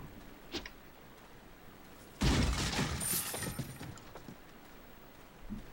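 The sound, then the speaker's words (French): In a video game, a knife strike smashes breakable boxes and vases. A faint tap comes first, then a loud shattering crash whose scattered debris clatters and fades over about two seconds, and a soft knock follows near the end. “le, coup de couteau c'est pour, pas utiliser de balles pour casser les, les, boîtes et les vases”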